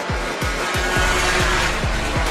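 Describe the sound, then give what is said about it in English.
A scooter ridden by someone in full leathers arrives at a pit stop, its engine a steady, broad roar. Regular low thumps pulse beneath the engine throughout. “it's a scooter coming in”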